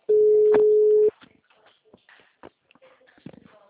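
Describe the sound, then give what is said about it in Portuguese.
A telephone call being dialed: a steady dial tone holds for about a second, then breaks off into soft clicks, taps and handling noise as the number is entered. “vou fazer uma ligação.”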